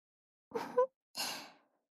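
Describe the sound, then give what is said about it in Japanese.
Gentle blowing of breath comes in two soft, airy puffs. The second puff is longer and slowly fades, quiet and alone in silence. “優しく、そして、ちょっと意地悪なくらいの絶妙な加減で、ふうふうしちゃいます。”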